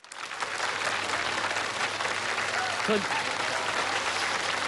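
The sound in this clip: Audience applause at a comic dialogue performance, a dense, steady wash of many hands clapping that rises quickly and holds evenly for several seconds, with a brief faint voice underneath.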